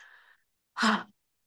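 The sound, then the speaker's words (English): A single deep exhale during a guided breathing exercise, one short, breathy puff of air lasting about a third of a second, soft but distinct after a moment of silence. “I'm going to take a deep exhale. And go ahead and take it with me, Stacy. Just exhale.”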